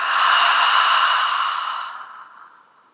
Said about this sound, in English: One more inhale and exhale.